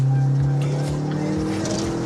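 Modified, non-stock car engine revving hard as its turbo boost comes in around 4000 rpm, a loud, continuous droning roar with a strong low tone and a dense, gritty upper layer throughout.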